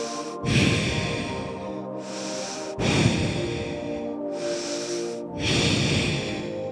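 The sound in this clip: Slow, deep breathing during a guided breathing exercise: three long, airy breaths, each starting with a sharp rush of air and then holding steady, with brief quiet gaps between.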